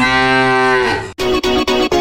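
A cow-like moo from a promotional mooing milk bottle in a supermarket chiller aisle, one long, low, droning moo followed by four short, evenly spaced bursts, loud and with no talk.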